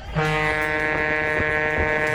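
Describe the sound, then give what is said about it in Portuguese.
A truck air horn blares in one loud, continuous harmonic tone, holding steady and unbroken for about two seconds during a honking convoy. “Buzinada é essa, hein, cara?”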